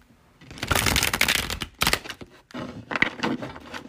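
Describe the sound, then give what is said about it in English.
Thick oracle cards being shuffled in a few loud bursts of riffling and flapping, separated by short pauses. “Pull an intuitive life coach oracle card for y'all. It might be more than one. We gonna see what pop out.”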